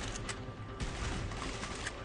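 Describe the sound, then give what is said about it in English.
Gunfire in a video game, a faint, rapid scatter of crackling shots over a dense, noisy backdrop, running without clear pauses. “Gunfire's drawing attention.”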